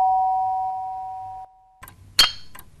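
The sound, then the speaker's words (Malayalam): An electric calling bell, rung by pressing a switch at the head of a bed, gives a steady sustained tone that cuts off abruptly, followed by a few faint clicks and a brighter metallic ding. “അത് വെച്ചാണ് കട്ടിലിൻ്റെ തലക്കീലുള്ള സ്വിച്ചിൽ അമർത്തി ഈ calling bell അടിക്കുന്നത്. അത് കേൾക്കുമ്പോൾ ഉണ്ടല്ലോ നെഞ്ചു കിടുന്നു.”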